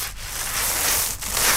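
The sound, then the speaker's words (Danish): Sanding during painting work: a continuous, dense, scratchy rubbing noise that stays fairly steady, with two brief dips, and no voices. “at det er et fikseprojekt. Det er lyden af malerarbejde.”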